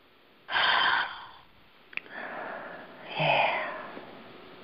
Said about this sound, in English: Deep breath in. Deep breath out. Exhale. Let's do one more.